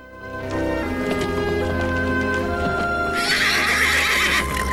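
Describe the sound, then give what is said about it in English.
A rearing horse whinnies: a steady equine sound gives way to a loud, bright, shrill neigh in the second half, which cuts off near the end. “The horse rears again as if pleased to see Tyler.”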